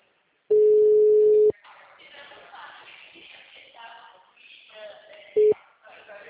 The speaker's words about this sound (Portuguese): Ligando pro cliente agora.